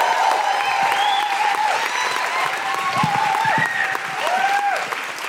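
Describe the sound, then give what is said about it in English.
A live show audience applauds and woohoos as a guest is welcomed onto the stage. Dense, steady clapping runs throughout, with many high whoops and cheers rising above it. “Please welcome to the stage with a huge guilty feminist woohooing noises, the wonderful Susan McCormick!”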